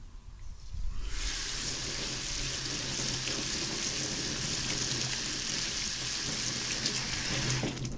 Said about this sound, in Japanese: 炊いたご飯は、ザルに入れて、さっと水洗いします。